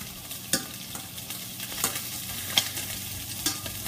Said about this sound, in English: Another 3 minutes on the fish, so I'm just going to turn them here.